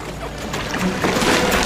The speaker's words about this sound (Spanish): Intentemos descubrir qué ocurre a bordo. ¡Sacad los remos!